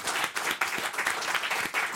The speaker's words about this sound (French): On applaudit Catherine Jacob.